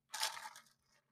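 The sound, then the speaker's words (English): A single crunchy bite and chew of an organic mushroom snack made with lion's mane, heard alone as a short burst of bright crackling that fades within about a second. “hear that? That is the sound of genius mushrooms.”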